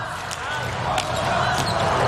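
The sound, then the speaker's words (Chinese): A volleyball serve struck during a match: a few sharp slaps over steady crowd noise, with a commentator talking throughout. “塞门纽克的发球。”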